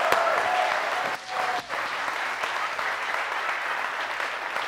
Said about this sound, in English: Let's give her a hand first. Let's encourage her.